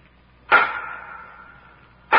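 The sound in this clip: Sharp rapping knocks sound in a prison chamber in a radio drama: a first loud knock decays into a hollow, ringing tail, and a second knock is cut off at the end.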